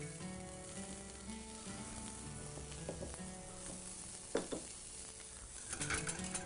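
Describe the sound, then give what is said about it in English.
Leeks sweating in a hot pan give a steady, bright sizzle that hisses throughout, with a few soft knocks of stirring partway through and no voices. “Time for our leeks, we're gonna add these in. Quickly sweat these off, these will only take another 2 seconds to cook as well.”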